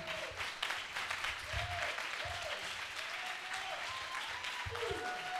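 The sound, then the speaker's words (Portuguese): Applause for a poet taking the stage at a poetry evening, many hands clapping in a continuous, fairly quiet wash that stays even for several seconds. “ao palco, palmas para o poeta.”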